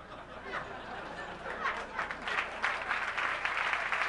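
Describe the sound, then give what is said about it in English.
Audience applause at a stand-up comedy show begins softly and swells into fuller clapping, with some chatter mixed in. “Delayed clap break.”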